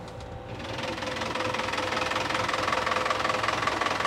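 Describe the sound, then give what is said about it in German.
A 100 hp four-cylinder Yanmar boat engine driving a fixed propeller runs with a steady, rapid knocking chug. Its level builds over the first second, then holds even and continuous with no talk. “Was für eine Maschine ist das hier? Das ist ein 100 PS Vierzylinder Yanmar. Der schiebt das Ding mit einem festen Propeller richtig gut weg.”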